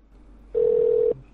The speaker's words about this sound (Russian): Сейчас еще раз наберу.